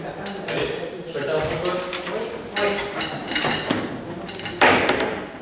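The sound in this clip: Plates and glasses clatter and clink as they are handed out at a dinner that forms part of an artwork. Several sharp clinks ring over steady bustle while people talk.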